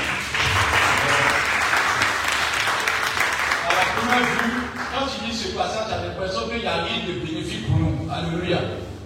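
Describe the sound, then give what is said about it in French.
Applause from a church audience acclaiming God during a Bible reading in a service. Dense clapping fills the first half, then fades as voices take over. “On peut acclamer à Dieu.”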